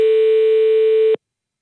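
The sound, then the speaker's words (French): A steady telephone dial tone on a French landline call, a single unbroken mid-pitched hum that holds evenly, then cuts off abruptly just past one second, leaving silence. “Allez, il nous reste quelques minutes, on appelle vite fait cet autre numéro.”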